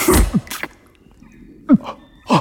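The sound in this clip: Sneezing: a person lets out a few short, sharp bursts separated by quiet pauses, each a quick explosive burst of breath.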